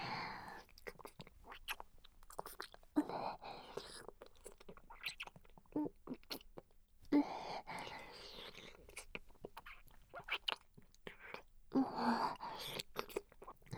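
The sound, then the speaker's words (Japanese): Wet kissing sounds come in soft, irregular bursts of smacks and breathy noises, with a voice whispering between them. “こういうキス初めてなんだね。”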